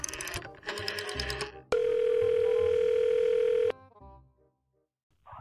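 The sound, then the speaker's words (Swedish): A steady telephone dial tone sounds for about two seconds while a call is placed, preceded by a short stretch of busy tonal sound and followed by near silence. “slår en signal. Det gör vi.”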